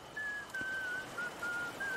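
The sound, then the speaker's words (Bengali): A person whistles as a signal in the dark near the sea, a few short, high, steady notes in a broken sequence over a faint low hiss. “এই সময় সে শিস শুনতে পেল।”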